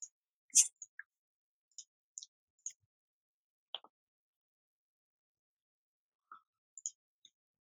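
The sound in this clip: Computer mouse clicks while someone works in a command prompt during an online game session: a scattered series of short, crisp taps separated by quiet gaps, with no talk.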